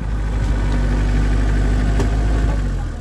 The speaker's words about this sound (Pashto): زه همدا اوس په یو کومه ګیره لرونکي موټر کې د یادې لارې په اوږدو کې هغه سیمې ته ورځم